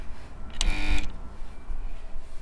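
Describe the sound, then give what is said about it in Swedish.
A doorbell rings at a home in Nacka, east of Stockholm: a short, bright electronic chime of under half a second that rises out of a low background hum and then cuts off. “Accentpodden ringer på Gösta Westlund i hans hem i Nacka strax öster om Stockholm.”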